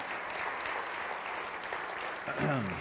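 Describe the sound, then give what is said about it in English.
An audience at a church gathering gives a round of applause for staff and volunteer teams, steady clapping with a voice speaking over it near the end. “So let's give them a round of applause, all those who have just been working so hard”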